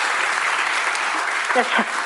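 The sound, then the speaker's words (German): A big round of studio audience applause on a Schlager entertainment show: a steady, full wash of clapping, with a brief voice rising near the end. “Und damit du mir das glaubst, kriegst du jetzt einen großen Applaus.”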